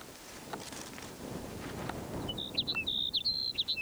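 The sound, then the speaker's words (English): Sage sparrow song: a quick series of high, thin, tinkling notes over the last second and a half, above a steady breezy hiss. “Sage Sparrow number 3.”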